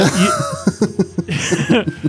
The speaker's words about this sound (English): You hear a throat clear from about another like 20 feet up above you